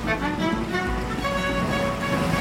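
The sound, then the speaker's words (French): Ambience at an indoor public swimming pool in Paris: a continuous wash of water noise with a steady low hum underneath, even in level and without distinct voices. “Là, je suis à la piscine, à Belleville, à Paris”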